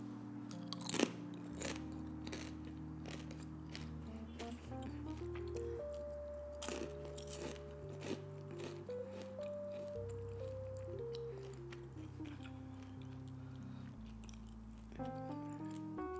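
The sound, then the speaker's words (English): Crunchy chewing of homemade zucchini chips and kale chips, with a few crisp bites and soft munching over quiet background music, faint overall. “And then we got some zucchini chips that I made and some kale chips. I'm just gonna taste some right now.”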